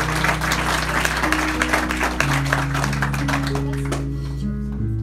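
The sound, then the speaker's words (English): A church audience at Riverbend Church claps to welcome a group into the church family, with dense, steady applause over sustained low musical tones. “Would you put your hands together and welcome them to the Riverbend Church family?”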